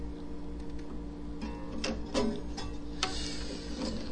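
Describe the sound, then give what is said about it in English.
Screws are turned alternately on either side and tightened against string pressure, giving a run of faint clicks and small creaks at uneven intervals over a low, steady hum. “Never mind about the noises that it's making as you're screwing it in.”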